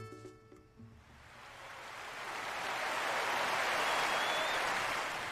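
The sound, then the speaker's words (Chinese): Applause rises from a live concert audience just before a classical tenor performance. The dense, hissing wash of clapping swells steadily from quiet to a sustained, even roar. “还没开始就已经有掌声了，这是来自于一个现场演唱的版本”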